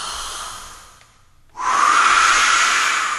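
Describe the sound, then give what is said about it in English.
A voice imitating the wolf blowing the house down in the Three Little Pigs story: a softer breath, a brief pause, then a loud, long, hissing blow lasting nearly two seconds. “He blew the house down. He blew the house down.”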